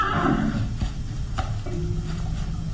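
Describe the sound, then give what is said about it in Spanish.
Horse whinny rings out at the start, a bright harmonic neigh, then fades into low rumbling from the horses as they are readied to ride from the castle. “De una manera u otra, ahora utilizaremos nuevamente esos caballos”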